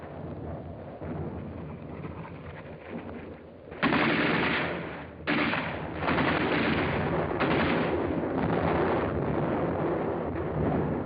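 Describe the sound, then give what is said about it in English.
Automatic gunfire from pillboxes during an infantry advance through a minefield: a dense, continuous crackle of rapid shots, with louder bursts breaking in around the middle and then sustained heavy firing. “Some 200 yards forward, they encountered mines and automatic fire from pillboxes.”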